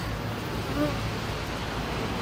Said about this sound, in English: there's so much peace that comes from just watching how these bees behave. And listening to them hum